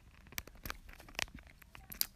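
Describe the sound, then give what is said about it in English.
A pet tearing and chewing at a phone: faint, irregular crunching and ripping bursts with scattered sharper scratches. “Epi's like tearing apart my phone while I record this.”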